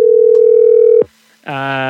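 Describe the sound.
A steady telephone line tone as a caller connects to a call-in line, holding for about a second, then cutting off with a click; after a short gap a voice comes on the line.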